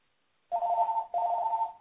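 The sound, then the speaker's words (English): A telephone rings in the background in two back-to-back bursts of a steady electronic warbling tone, with a tiny gap between them and no talk. “Sorry for my phone ringing in the background.”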